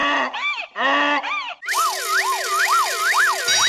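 A siren warning sound effect begins with a few short wailing bursts. It then switches to a loud, continuous warbling siren whose pitch sweeps rapidly up and down over a bright hiss.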